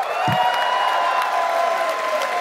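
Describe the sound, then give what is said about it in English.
A crowd applauds at a live comedy show with dense, sustained clapping and a few cheers mixed in, holding steady throughout. “You're a wonderful crowd. Let's keep this very same applause going for the first performer coming to the stage”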